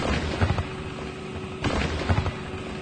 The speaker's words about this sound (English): The Royal Navy spots the intruder too and puts up a barrage to drive off the enemy.